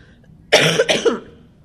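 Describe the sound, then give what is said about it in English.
A harsh, awful-sounding cough in two quick, loud bursts, alone against a quiet background. “And so, I like have this awful cough, which is just wonderful.”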